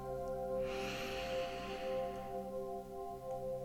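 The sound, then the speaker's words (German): A long, deep inhale through the nose during a guided meditation, a soft airy rush lasting over a second, set against a sustained, calm musical drone. “Und dann nimm nochmal einen tiefen Atemzug durch deine Nase ein.”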